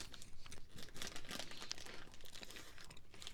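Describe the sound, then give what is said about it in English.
Crinkling of a snack bag, its cereal-like snacks being eaten, as a steady run of quiet, irregular plastic crackles and crunches that continues throughout with no voices. “These are an issue. I'm going to eat this whole bag.”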